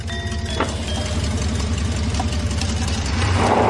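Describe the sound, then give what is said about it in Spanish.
Car engine idling with a low, steady rumble as the car sits stopped, then the sound swells louder near the end as it drives off. “El coche de Villambrosa se va.”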